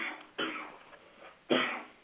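Two faint, muffled coughs from a man, one short and one slightly stronger, separated by about a second of quiet.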